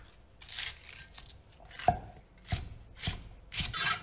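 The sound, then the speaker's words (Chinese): Knife chopping deseeded green and red peppers into small pieces on a board: a fairly quiet, irregular series of crisp strikes with faint scraping between them, growing more distinct toward the end. “准备青红椒各一个，去籽之后切成小块备用。”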